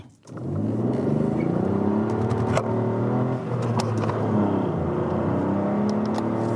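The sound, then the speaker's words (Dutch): Engine drone of a Ford Fiesta ST hot hatch with a downsized engine while driving: a steady, sustained hum with layered tones that shift slightly in pitch, continuous and without talk. “ging een potje sturen met de leukste Ford Fiesta van het moment. De ST.”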